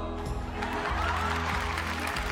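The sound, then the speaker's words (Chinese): Crowd applause at a singing competition as the final contestant finishes, a steady wash of clapping blended with a pulsing low music track, fairly quiet overall. “东妈还没有来得及起立，满场响起的欢呼和掌声就让她傻了眼”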